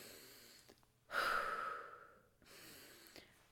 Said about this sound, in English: just sit and do deep breathing